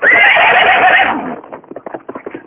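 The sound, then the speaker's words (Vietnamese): A horse lets out a long, loud whinny, then hooves clip-clop in a quick, irregular beat as the neigh breaks off. “Con ngựa hí một tiếng dài, đi như bay.”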